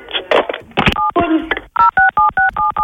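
A telephone keypad dials a call to the police. After a brief burst of noise, several short, loud dual-tone beeps follow one another in quick, even succession.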